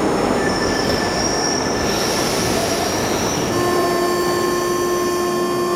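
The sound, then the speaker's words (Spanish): A subway train arrives through a tunnel, its wheels giving a steady metallic squeal of sustained high tones over a constant rumble, with a new, lower squealing tone joining partway through. “De pronto, mi tren apareció por el túnel y me calmé.”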